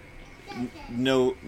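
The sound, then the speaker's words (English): A naked toddler who has walked into a room shouts in two short high-pitched bursts, the second louder and longer than the first. “Sorry, I've just had here a naked toddler walk into the room and shout at me.”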